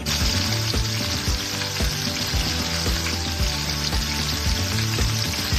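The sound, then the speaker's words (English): Chicken frying in olive oil in a pan makes a steady, dense sizzle. It crackles and hisses evenly and fairly loudly throughout, with no voices. “We're going to do a couple good glugs of olive oil here. Wow. I like that. It's not splashing.”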